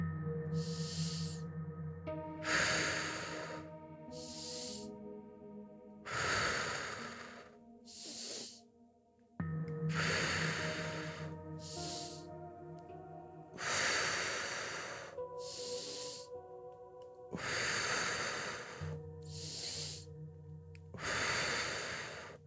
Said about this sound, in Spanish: Inhala, exhala. Hacia adentro y hacia afuera. Inhala, exhala.